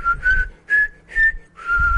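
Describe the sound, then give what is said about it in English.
Whistled opening theme of a classical string quartet in F major: four clear, pure-toned phrases, the last held longer, each separated by a short pause, with no other sound. “Something popped into my mind, a string quartet of Beethoven, the F major, opus 59, and while I whistled the opening theme”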